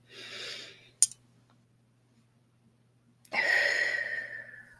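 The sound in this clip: A person takes deep breaths: a soft airy breath, a short click, a quiet pause, then a longer and louder breath that slowly fades out.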